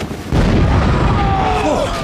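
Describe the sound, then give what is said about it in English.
A grenade explosion in a military comedy sketch: a sudden loud blast bursts in abruptly, then holds as a dense, sustained rumbling roar that stays loud until the end. “Wait, that's a revenge grenade! Quick, get rid of it!”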